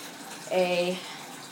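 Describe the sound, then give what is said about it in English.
Water runs from a tap into a pet's water bowl in a short, steady gush lasting about half a second, with a faint ringing tone as the bowl fills, then it stops. “So I'm filling up the water bowl, getting him some, he drank the rest of the water when I got home today, so we're giving him some fresh water”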